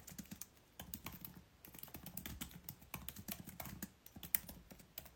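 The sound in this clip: Soft typing on a computer keyboard as a note is written down, with many irregular keystrokes in quick bursts and brief pauses between them. The tapping is faint and nothing else is heard.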